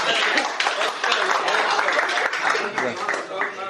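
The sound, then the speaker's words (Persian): Audience applause is a dense, loud stream of irregular hand claps that runs through the whole stretch, with voices mixed in among the clapping. “تشویق کنین”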